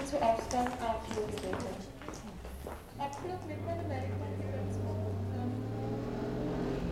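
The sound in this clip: A car drives while people talk, a low steady engine drone that sets in partway through and holds beneath the conversation to the end.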